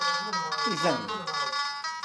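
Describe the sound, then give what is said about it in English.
Song-like electronic warning melody from a motion-detector intruder alarm set off by a hand waved outside a window, a steady run of bright, buzzy tones with a short wavering pitch dip in the middle. “A simple wave of the hand outside the window triggers the motion detectors and sets off a song-like warning.”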